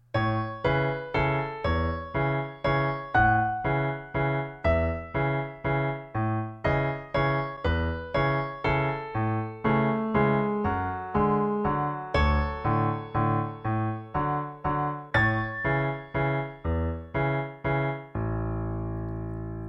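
Instrumental theme music from a TV drama soundtrack: many evenly pulsed struck chords, each decaying before the next, carrying a slow melody at a steady tempo and closing on a long sustained chord.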